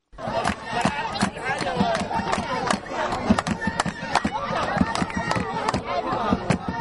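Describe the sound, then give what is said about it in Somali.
A stadium crowd of football fans at a tournament final in Toronto roars steadily, with repeated sharp drum hits cutting through the dense, continuous crowd noise and babble. “Waxaa garoonka soo buuxiyey dadweyne aad u tiro badan oo sugayay ciyaartani oo qaarkood ay ahaayeen taageerayaasha labada kooxood oo watay durbaanadooda.”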